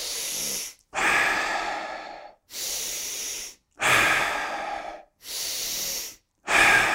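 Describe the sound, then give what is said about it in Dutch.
Deep, forceful breathing during a breathing exercise: six loud, rushing breaths follow one another in a steady rhythm, each separated by a brief silence. “Adem door. Laatste 3. Lekker krachtig.”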